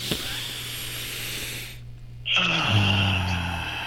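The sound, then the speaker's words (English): A deep breath drawn in through the nose during a guided breathing exercise: a long, airy, breathy inhale with a steady low hum underneath. “All right, 3, 2, 1, in through the nose.”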